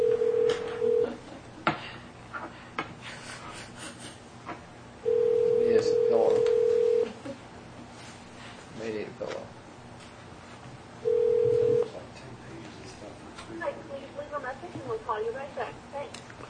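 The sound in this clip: A telephone call is dialed and rings through to voicemail: three long, steady ring tones separated by pauses, with quieter clicks and busy line noise between them.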